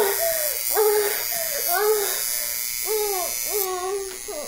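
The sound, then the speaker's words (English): A violet wand, a low-amperage electrical tool, gives a steady high-pitched electrical buzz throughout while a voice makes repeated wavering, arching vocal sounds over it. “This is a low ampage tool that's used. You can look up a violet wand.”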